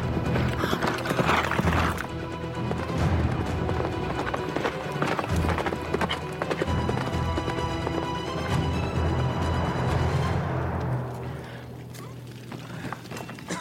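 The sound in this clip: A horse galloping through a forest. Rhythmic hoofbeats run through a loud, dense, continuous mix of sound that eases slightly near the end.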